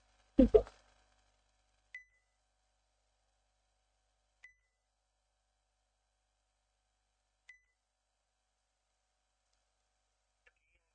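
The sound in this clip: Line beeps after a phone call is ended on air: four short, faint, high tones spaced a few seconds apart, following a brief burst of voice at the start, with near silence between them.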